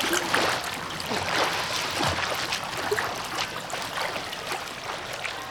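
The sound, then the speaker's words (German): A child swims in a pool, splashing the water. Irregular splashes and sloshes run continuously at a moderate level. “Ich kann schwimmen! Ich kann schwimmen! Super, Conny! Aber nicht das ganze Becken austrinken. Halte lieber an, bevor du sprichst. Ich muss sowieso weiter schwimmen.”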